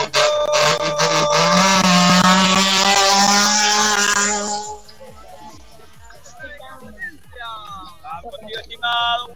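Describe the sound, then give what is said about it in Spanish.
A rally car launches from the start line of a stage, its engine roaring loud and rough for about five seconds before dropping away, leaving quieter scattered sounds and voices. “Atención, 10 segundos para que largue la 905. En breve estará largando ese auto.”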